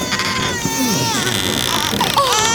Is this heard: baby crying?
yes